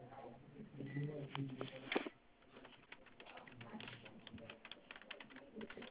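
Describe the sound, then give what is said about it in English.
Keyboard typing as an email address is entered: a voice is heard first, then a run of quick, light, irregular key clicks continues quietly to the end. “Can you also type your email for me?”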